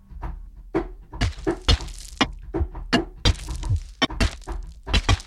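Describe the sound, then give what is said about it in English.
Synthesized concrete bullet impact effects from a sound-design preset, played from a keyboard: many sharp, punchy thuds and cracks in quick, irregular succession, some with short gritty tails. “Let me try a different preset. Let's go to the bullet impact. Concrete bullet impact.”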